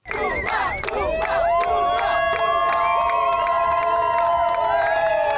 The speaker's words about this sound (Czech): Příležitostí vyvolávat jména českých hvězd měli jejich kamarádi z národního týmu víc než dost.